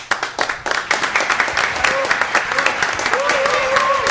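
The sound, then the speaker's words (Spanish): Applause welcomes a group of young guests, with a burst of scattered claps that thickens into steady, lively clapping from a small audience. “Vamos a recibir con un fuerte aplauso, puede ser, a los chicos.”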